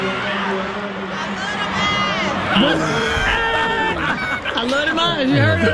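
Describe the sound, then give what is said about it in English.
An audience cheers and screams as actor Michael Ealy is announced at a cast presentation: continuous excited crowd noise with high whoops, and a voice talking over it. “And here's Michael Ealy gets announced. And listen to the audience, though. They wouldn't stop. This went on for about a minute or two.”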